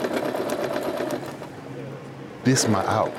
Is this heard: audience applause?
no